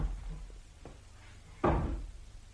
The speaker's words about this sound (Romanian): Ce-a fost asta? Nimic. A căzut un scaun în camera de alături.